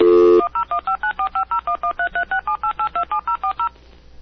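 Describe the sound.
Telephone number dialing on a keypad: a brief steady dial tone, then a quick, evenly spaced string of many short two-tone DTMF beeps at varying pitches, ending in near silence.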